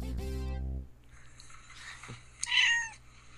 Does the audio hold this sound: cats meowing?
yes